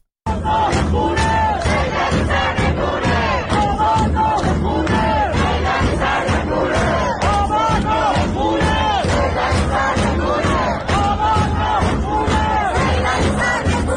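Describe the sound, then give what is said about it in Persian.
Protesters chant slogans in unison in Sadeghieh, Tehran. Many voices form one dense, loud, continuous roar that holds steady throughout. “از جمله حتی در این صدای این ویدیو از صادقیه تهران میتونیم ببینیم که از همین صدا هم تعداد معترضان بسیار زیاده.”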